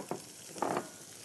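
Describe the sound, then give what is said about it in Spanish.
Onions and bell peppers frying in a pan for fajitas: a quiet, steady sizzle with two short, louder bursts of crackling. “Porque primero vamos a sofreír la cebolla y los pimentones”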